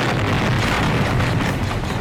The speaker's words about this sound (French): C'est pas passé loin. Ça fait des belles explosions quand même.